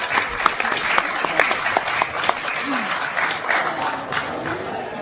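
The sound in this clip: An audience applauds to welcome a speaker at a 10th anniversary event of an independent media movement: brisk, dense clapping lasting about five seconds.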